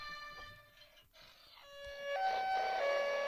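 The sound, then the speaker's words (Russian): A police motorcycle siren sounds as an electronic wailing tone that steps up and down in pitch. It starts faint and grows noticeably louder over the last second or so. “Милиция. Полиция. И это мотоцикл полицейский.”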